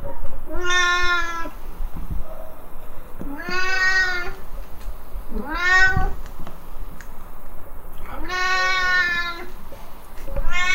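A Siamese cat in a cattery meows loudly and insistently: several long, drawn-out, wailing meows repeated at intervals of a couple of seconds, each rising and then falling in pitch, with no talk.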